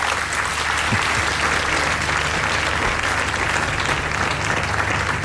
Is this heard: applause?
yes